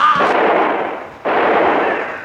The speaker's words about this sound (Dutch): Zijn revolver gaat af, maar treft nergens toe.